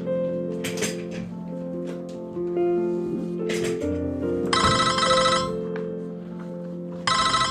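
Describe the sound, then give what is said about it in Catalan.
Telephone ringing with an incoming call: two bright, buzzing bursts of electronic ringing, one midway and one at the end, over a continuous musical bed. “Precisament un dia de l'any 2016, sí, en López rep una trucada des de Kimoton.”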